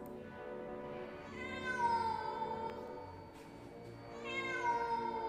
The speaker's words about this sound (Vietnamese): Chỉ trong tích tắc, con mèo biến mất, nhưng tiếng kêu của nó vẫn dường như văng vẳng đâu đây.